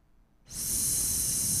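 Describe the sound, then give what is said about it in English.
A hissed S consonant, voiceless and high-pitched, starts abruptly and holds steady and loud for over a second with no voice behind it. “Step number one, put your tongue and lip into the S position and make the sound S.”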